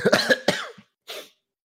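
Phlegmy coughing from coffee phlegm: a quick, loud run of harsh coughs, then one more cough after a short silence.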